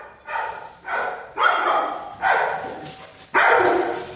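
A rescued Labrador retriever barks five times at home. The barks are loud and sharp, with uneven gaps between them, and no voices can be heard.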